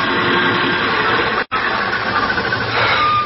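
Car engine on a main highway as a vehicle comes up and stops for a hitchhiker, a steady, broad engine rumble that runs throughout with a brief dropout near the middle.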